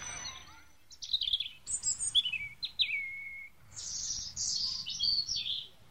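Caged sparrows chirp in several quick, high-pitched bursts of twittering calls separated by short pauses, fairly faint and with no voices.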